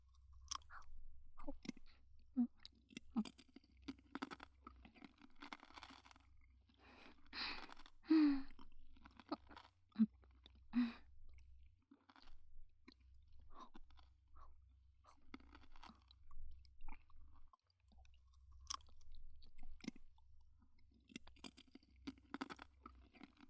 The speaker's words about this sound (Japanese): じゃあ次はこのぶどう飴なんてどうかな。はい、どうぞ。ぶどうは種なしだから全部食べられるよ。